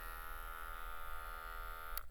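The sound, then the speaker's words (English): Steady harmonic buzz of an electric razor run over a binaural dummy head during a mock haircut and shave, a constant droning whine with a brief sharp click just before the end. “I hope I don't destroy this dummy head here. I think I'm cutting it up with this razor.”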